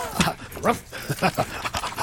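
A dog pants on a hot day, giving quick, breathy huffs in a steady, rapid rhythm. The panting is fairly loud and close.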